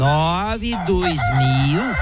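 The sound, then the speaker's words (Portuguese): A rooster crows loudly in a long, drawn-out call, its pitch wavering and then swooping up and back down near the end. “Galo cantou, marcou 4-1.”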